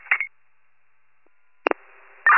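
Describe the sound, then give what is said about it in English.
Telephone tones as a call is placed to a child abuse hotline contact: a short electronic tone burst, a pause of silence, then a sharp click and a lower ringing tone, ending with a louder steady tone, with no talking. “Trying a phone call to Mary from Child Abuse Hotline”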